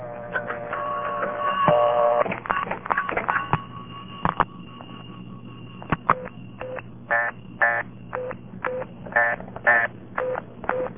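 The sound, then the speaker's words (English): Telephone exchange signalling for a bad dialing prefix: steady electronic tones and a few sharp clicks, then many short, evenly spaced tone bursts repeating at a quick, regular pace, moderately loud. “That's not quite the same tone as for a bad prefix. For a bad prefix, you get this.”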